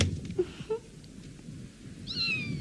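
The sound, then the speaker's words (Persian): A kitten meows once near the end, a thin, high cry that drops in pitch as it fades, over a low rumbling background with a few faint chirps earlier. “بچه گربه بیچاره من”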